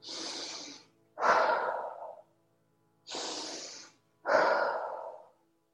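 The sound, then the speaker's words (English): Slow guided meditation breathing, in through the nose and out through the mouth: two full cycles, each a soft airy inhale followed by a louder, fuller exhale, with pauses between. “Let that breath flow in through that nose. Let it draw out through that mouth.”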